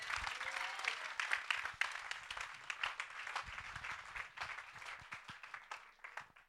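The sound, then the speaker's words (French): Church audience applauding: dense, steady clapping that stays fairly even in level for the whole stretch, soft and continuous without pauses. “Acclame Dieu pour lui.”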